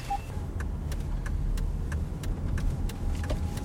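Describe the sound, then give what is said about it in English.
A car drives along, steered with left-sided hand controls; a low, steady road and engine rumble runs throughout, with a series of light, regular ticks above it. “And now we're just driving like normal.”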